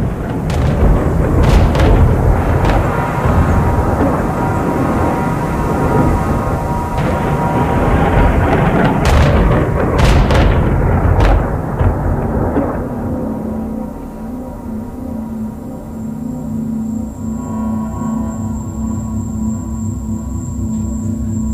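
Distant artillery fire rolls as a continuous low roar, with several sharper booms clustered in the middle. It settles into a quieter, steadier rumble toward the end.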